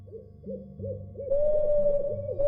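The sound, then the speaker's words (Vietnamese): An owl hoots over and over in a steady rhythm of short, low calls that grow louder partway through. “Tiếng cú bắt đầu kêu vang ngày càng lớn.”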